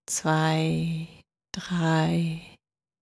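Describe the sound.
Two slow, voiced exhalations during a guided breathing exercise, each a long sigh-like breath of about a second, separated by a short silence.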